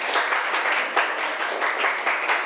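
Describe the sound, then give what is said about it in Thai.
Classroom students clap for themselves in a brisk, steady round of applause, with dense overlapping claps at an even level throughout. “ปรบมือให้ตัวเองอีกหนึ่งครั้ง”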